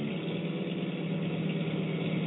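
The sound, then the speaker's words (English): Low, steady engine drone from a truck with a worn clutch and transmission and brakes needing work, being shifted down so the motor helps brake. Quiet and even throughout, with no clear change in pitch. “Better shift it down again. Let the motor help brake it.”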